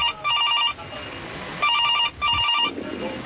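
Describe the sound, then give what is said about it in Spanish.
A telephone rings with another incoming call at a candidate's office: three bright electronic ring bursts, one alone and then a close pair, over a low background murmur. “¿Otra llamada?”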